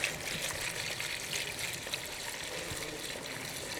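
Liquid trickles faintly and steadily as it is poured, a soft continuous stream with no voices over it.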